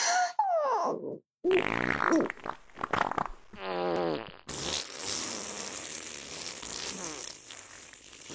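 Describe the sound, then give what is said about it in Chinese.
Loud farts sound in a run of rasping, sputtering bursts of changing pitch, then give way to one long buzzing fart that drags on for several seconds. “恐怖的放屁声回荡不绝”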